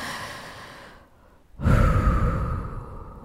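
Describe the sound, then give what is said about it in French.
A deep, deliberate breath taken as a stress-relief exercise: a soft airy stretch, a brief near-silent pause, then a loud, full rush of breath that slowly trails off. “s'imposer trois respirations profondes, mais vraiment des vraies respirations.”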